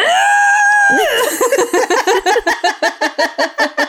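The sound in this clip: A voice imitating a high, nasal screech holds one sustained, strained tone for about a second, then breaks into a rapid run of many short, rhythmic, laugh-like bursts, loud throughout.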